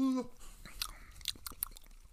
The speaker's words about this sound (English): It's time to take it down. And as the Vikings would say, skull. Skull. Skull.